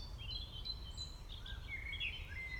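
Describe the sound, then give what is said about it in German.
Birds chirp and sing outdoors, a scattering of high, thin tweets and short trills over a faint low rumble, with no talking. “Genieße die Geräusche, die du hörst, das Vogelgezwitscher,”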